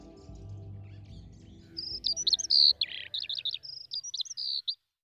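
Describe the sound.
Small birds chirping in quick, high-pitched bursts of short twittering calls, a rapid string of bright chirps with brief gaps between them, following a quiet, low murmur at the start.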